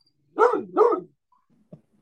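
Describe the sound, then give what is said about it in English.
A neighbour's dog gives two quick, mid-pitched barks in close succession, followed by quiet and a faint brief tap. “That's the neighbor's dog. He's a good dog.”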